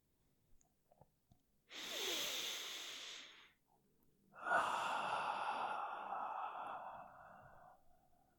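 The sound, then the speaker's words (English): A slow, soft deep breath is drawn in through the nose. After a short pause comes a longer, whooshing exhale out through the mouth. “Take a deep breath in your nose. Breathe out the mouth.”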